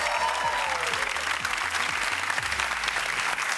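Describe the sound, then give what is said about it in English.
A studio audience applauds on a family game show, with dense, steady clapping that holds at an even, fairly loud level throughout. “Put your hands together for the Hunter family.”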